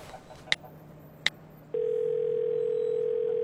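Two quiet sharp clicks followed by a steady, continuous, mid-pitched telephone tone after a call is placed from a car in traffic.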